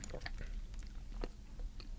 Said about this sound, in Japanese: 私はアカデミートマトで煮込んだミネストローネをいただきます